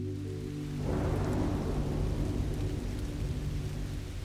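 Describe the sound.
A rolling thunderstorm with a dense, steady rain-like hiss. A deep rumble swells after the first second and carries on throughout, with no voices.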